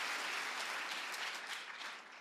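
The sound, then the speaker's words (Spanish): Faint, even applause from a church audience during a Spanish-language sermon, a soft continuous patter of clapping that eases slightly toward the end. “Si alguien cree que esta palabra le habla, que se escuche ese aplauso. Si ese aplauso es porque Dios sella con su Espíritu lo que acabo de decir.”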